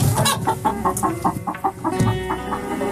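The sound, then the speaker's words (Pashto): A hen clucks in a quick run of short, repeated, mid-pitched calls at a fairly even rhythm, with brief pauses between bursts and no talking. “د چرګې کغاس و”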